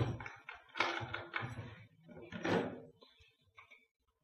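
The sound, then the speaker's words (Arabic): A door being opened in a house, heard as a few clunks and rattles of the latch and hinges, with low, muffled voices in the background. “استنى ما افتح لك الباب.”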